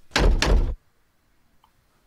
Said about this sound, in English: Close the car doors.